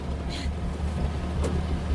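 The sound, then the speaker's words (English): A jeep driving up to an airbase: a steady low engine rumble throughout, with a couple of brief higher sounds over it. “Alice drives the jeep up to the airbase with Saya beside her.”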